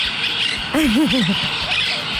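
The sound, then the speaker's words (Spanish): A parakeet squawks in a town square beside a cathedral, a single short warbling call that wavers up and down, heard over a steady background hiss. “Oigan, estar abajo de una banca, a lo mejor ahí sentado en Catedral o en Villa de Ceris, y que se escuchen nomás los cotorritos.”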